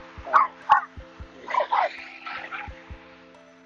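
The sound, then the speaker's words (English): Dogs barking at passing scooters in Santa Monica: a few sharp, mid-pitched barks in separate bursts, with a steady, faint, low rhythmic thumping underneath. “Dogs are always freaking out at scooters here in Santa Monica.”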